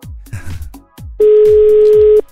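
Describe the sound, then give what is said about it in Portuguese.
Telephone call tone heard as a single steady electronic tone lasting about a second, preceded by a few low rhythmic thumps that continue beneath it. “tá na hora de atender uma ligação”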